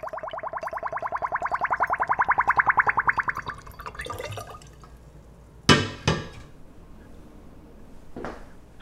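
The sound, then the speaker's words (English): Homemade plum wine draining through a funnel into a bottle, escaping air making a rapid train of bubbly gurgles that swell in loudness into a crescendo, then fade, followed by a few sharp glassy knocks. “Chris Hoff is making himself some homemade plum wine. When the wine passes through the funnel and into the bottle, air escapes, creating this little bubbly crescendo.”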